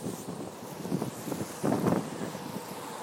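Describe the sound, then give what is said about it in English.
Gusting wind buffets a microphone outdoors, producing a low, rumbling roar that swells in a few bursts and is strongest just past the middle, with no talking. “It's got a bit windy now, so I'm not sure how that's affecting what you're hearing”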